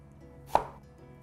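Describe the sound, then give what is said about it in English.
A knife dices an onion, giving a single short, sharp knock on the board that stands alone and fades quickly. “So I'm just going to dice the onion here.”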